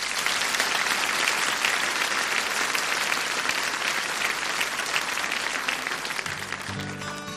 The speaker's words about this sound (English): Give them a big hand. Come on.